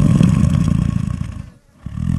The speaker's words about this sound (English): Lions hunt at night and nap all day. This is a snoring lion.